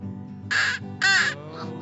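A person on a golf course imitates a crow's caw: two loud, harsh calls in quick succession, heard over a steady low hum.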